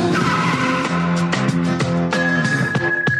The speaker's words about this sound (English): she kicks in the car's glass window, gets into the car, and drives away.